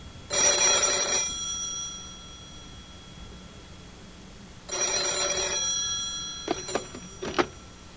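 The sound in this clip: A telephone bell rings with an incoming call in two loud, bright, metallic bursts separated by a pause, followed by a few sharp clicks.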